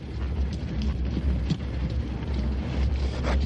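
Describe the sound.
Wind blows across a destroyed desert village as a steady, dense rushing and hissing with slight gusty swells. It holds at an even level throughout, with no voices.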